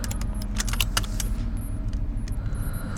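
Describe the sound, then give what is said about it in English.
A spaceship's warp drive accelerating: a loud, steady low rumble that fills the whole clip, with bright jingling, rattling metallic tinkles flickering above it and no voices. “Prepare for warp drive acceleration.”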